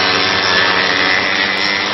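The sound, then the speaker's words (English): Engines of a homemade aircraft roar at takeoff down a makeshift runway, a loud, dense, continuous mechanical roar that stays steady and unbroken throughout, heard alone without voices. “The engines roar to life, and then Upendo is out of his hands and down what passes as a runway.”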